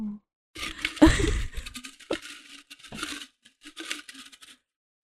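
A paper topic slip is drawn from a container, giving several bursts of crinkling, rustling paper with small rattling taps, separated by brief quiet gaps.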